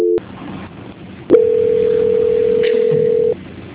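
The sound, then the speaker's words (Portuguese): A telephone line tone plays during a call transfer: a brief tone, a pause, then a steady, loud, mid-pitched tone held for about two seconds over faint line hiss before cutting off. “Só um minutinho que vou transferir para a auditoria. Transferência.”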